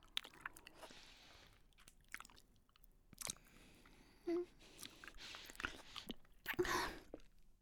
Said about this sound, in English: Here, kiss me.